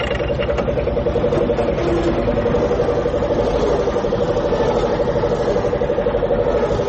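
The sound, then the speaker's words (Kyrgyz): A car engine idles with a steady, even rumble and a constant mid-pitched drone that holds unchanged for about seven seconds, with no voices over it. “Азыр мен машинага токтоп коёюн.”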